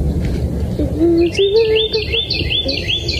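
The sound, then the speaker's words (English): A baby bird chirps in a quick run of many short, high, evenly repeated peeps over low background rumble. “The baby birdie.”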